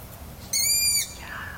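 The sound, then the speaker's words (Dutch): A long-eared owl perched on a bare branch beside a lake calls at nightfall. It gives a single drawn-out, high, whistling call of about half a second against faint, quiet background noise. “Een ransuil op een kale tak. Een wonderlijke ervaring, zo in de stilte van de naderende nacht.”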